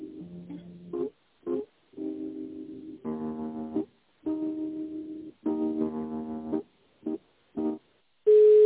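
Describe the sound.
Telephone line tones play while a call is put through to another person: a series of electronic harmonic tones at changing pitches, separated by short silent gaps, ending in a louder steady tone, with no talking.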